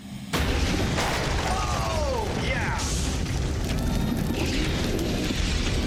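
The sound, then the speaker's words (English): A house blows apart in a staged gas explosion set off with several ovens running gas at full power, opening with a sudden loud blast that gives way to a sustained, roaring rumble of noise. “I'm gonna fast forward to where they blow this house up like you think it's gonna blow up.”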